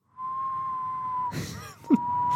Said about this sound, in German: so normales Pfeifen kann ich manchmal. Ich kann es mal live versuchen.